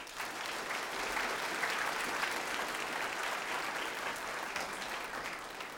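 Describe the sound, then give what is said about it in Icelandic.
Applause for jazz big band soloists on piano and tenor saxophone at a concert in Reykjavík City Hall: dense, steady clapping from an audience that holds evenly loud for about six seconds without a break. “Einleikari í þessu lagi voru Agnar Már Magnússon á píanó og Gestur Pálsson á tenór, ef ekki gefa þeim gott klapp.”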